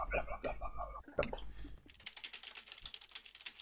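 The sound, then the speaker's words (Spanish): Someone types hard and fast on a computer keyboard, a dense run of many sharp clicks. It follows a brief stretch of talk. “Hay alguien que teclea con ganas. ¿Cómo se tiene que teclear cojones ahí?”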